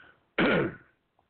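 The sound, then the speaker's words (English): A single throat clearing by a man, a short, harsh rasping burst that holds for about half a second and then fades, surrounded by near silence. “I got to try and get my throat clear.”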